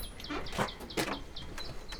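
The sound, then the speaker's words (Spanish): Chirping from farm poultry kept on a rural estate, with many short, bright high calls repeating in an uneven rhythm. Harsher, broader squawks rise above them at moderate loudness. “mira as aves, que é para comer”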